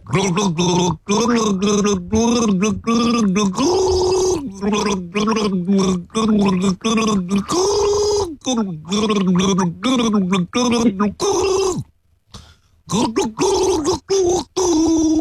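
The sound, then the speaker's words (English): Someone gargles the melody of a pop song, producing a bubbling, wet tone that rises and falls in pitch. The voiced phrases run almost continuously, with a short pause near the end. “I'm gargling a song from an artist who is a daddy.”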